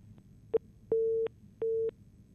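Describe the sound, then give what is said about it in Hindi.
Telephone busy tone after a call dropped: steady mid-pitched beeps, a short blip followed by two longer tones with gaps between, alone with no talk. “शायद बच्चे का phone cut गया।”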